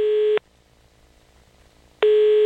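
Telephone line tones play while an international call to Miami is placed: two loud, steady buzzing tones, one at the start and one at the end, separated by nearly two seconds of near silence.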